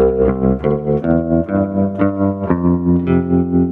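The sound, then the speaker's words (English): Guitar played through reverb with a tremolo effect modulating the reverb tail, ringing sustained notes that pulse with a steady rhythmic throb, loud and alone. “when I play, you hear the tremolo is affecting the reverb tail.”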